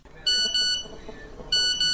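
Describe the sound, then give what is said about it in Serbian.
Phone text message notification tone going off early in the morning to wake someone. Two bursts of bright, high electronic beeps are separated by a short, quieter gap. “Budi me poruka.”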